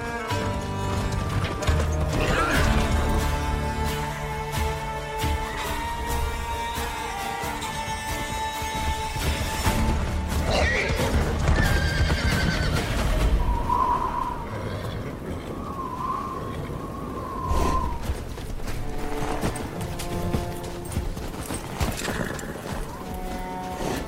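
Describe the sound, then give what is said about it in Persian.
Horse hooves clip-clop steadily through a mountain ride in The Witcher video game, set in a dense, busy game soundscape, with a brief high whinny-like cry partway through. “مسیرشون رو با اسب از کوهستان ادامه میدن.”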